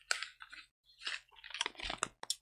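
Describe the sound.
Pop Rocks candy crackling, a quiet, irregular flurry of tiny crisp snaps and pops in uneven bursts, broken by a brief silence early on.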